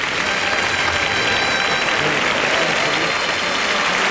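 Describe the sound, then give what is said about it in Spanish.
Crowd ovation at a bullfight as spectators acclaim a bullfighter after the banderillas are placed. Loud, continuous clapping from a large crowd runs unbroken and at an even strength from start to finish. “Y el público que ovaciona fuertemente a Viruta, ¿eh? porque se la ha jugado.”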